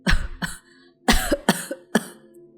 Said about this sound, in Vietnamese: bà cụ bịt miệng ho lên một tràng dài, rồi mới tiếp tục câu nói.